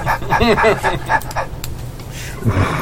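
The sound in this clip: A person imitating a dog's bark with a few short, loud woofing yelps that have a whiny, yipping tone, followed by quieter noise.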